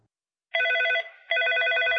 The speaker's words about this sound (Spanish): Tenemos otra llamada de la línea telefónica.